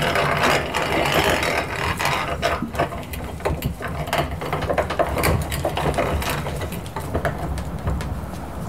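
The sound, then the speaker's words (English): A hand mill grinds moist, sticky pods, giving a steady, loud mechanical rasp with many dense ratcheting clicks and crunches that continue throughout without pause. “It's definitely a little tricky when they're still moist. I can see it's coming out real sticky. Yep. Eventually, the pods start going through the mill,”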